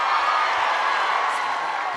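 Applause and cheering from a live audience greeting a singer whose latest album was just announced: a dense, steady roar of clapping and shouting that stays loud and unbroken throughout.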